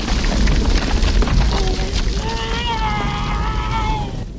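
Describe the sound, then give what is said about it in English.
Small rocks tumble down a cliff face beside a clearing, a loud, continuous rumbling clatter that holds steady for the whole stretch and eases slightly at the end. “A cascade of small rocks tumbles down the cliff face bordering the clearing.”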